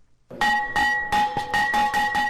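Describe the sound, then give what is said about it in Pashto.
A school bell rings to open the new school year in Afghanistan's cold regions, struck several times in quick, bright, metallic rings with a clear ringing tone. “ولسمشر محمد اشرف غنی د شنبه په ورځ د ښوونځي د زنګ په کړنګولو سره د افغانستان په سړو سیمو کې د نوي تعلیمي کال پرانیسته وکړه”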